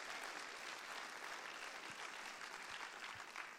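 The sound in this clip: Congregation applause welcoming guests at a church service: faint, steady clapping from many people, an even, continuous patter without pauses.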